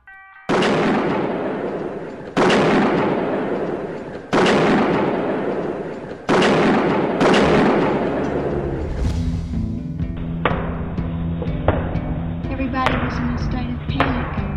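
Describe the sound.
Heavy gunshot-like booms ring out during a chaotic shootout in which police return fire. Five loud blasts come at fairly even intervals, each with a long decaying tail, followed by denser overlapping noise.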